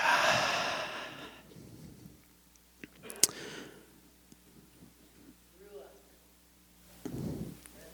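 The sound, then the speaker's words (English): A deep breath drawn in and let out slowly, a long airy hiss at the start and another soft rush of breath near the end, with faint clicks in the quiet between. “Let's take a deep breath together as we end. Breathe in and out.”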